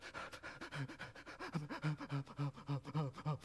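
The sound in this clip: A voice imitates an upset small child panting: rapid, ragged gasping breaths in a quick repeating rhythm, some of them voiced, fairly strong and heard alone without words.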